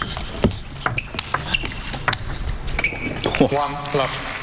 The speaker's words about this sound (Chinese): 林诗栋来率先发球。